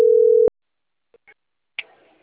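A telephone call tone sounds as one steady, mid-pitched beep lasting about half a second, then cuts to near silence broken by faint small clicks and a brief burst of noise near the end.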